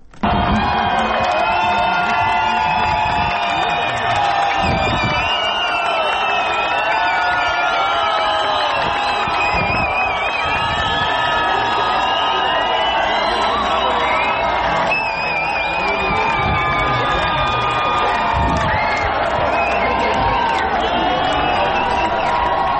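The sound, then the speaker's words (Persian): Cheering and whooping erupt from people gathered as a Swedish court announces its verdict, a loud, unbroken wall of celebratory shouts, whistles and excited voices that never drops away. “صدایی که شنیدید مشخص بود، صدای لحظه یک حکم اعلام شده و حاضران در محل اعلام حکم شادمانی میکنند به مناسبت حکمی که درباره”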